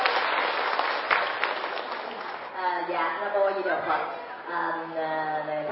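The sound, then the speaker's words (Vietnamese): Audience applause at a ceremony held at a monastery, dense steady clapping that fades as a voice starts speaking over the last part. “Xin toàn thể mọi chúng trong một tràng pháo tay.”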